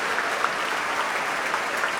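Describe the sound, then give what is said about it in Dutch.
Concert audience applauding the orchestra's musicians, including the clarinettists, after a Brahms Fourth Symphony performance. The clapping is a dense, even roar, steady and fairly loud throughout, with scattered sharper claps. “Applaus ook voor de klarinetisten Olivier Paté en Hein Wiedijk.”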